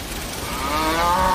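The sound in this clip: Cattle moo on a desert farm, one long, drawn-out bovine low whose harmonic tone swells slightly louder toward its end over a steady background hiss.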